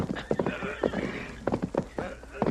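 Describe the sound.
A horse neighs while its hooves clip-clop as a rider mounts it. The loud whinnies come in bursts over a steady rumble of hoofbeats and movement.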